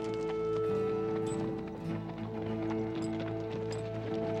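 Horses gallop as riders charge through a band of men in a canyon chase. A rapid, continuous run of hoof beats is mixed under sustained music.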